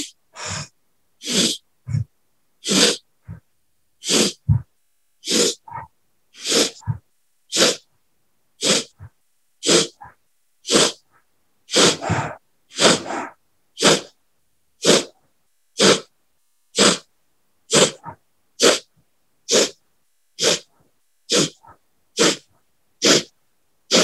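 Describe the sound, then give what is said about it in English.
Forceful, rapid breaths from a breathing exercise: many sharp, evenly spaced bursts of air, roughly one per second, loud and alone without talk. “We're just going to increase the rate of breathing a little bit faster.”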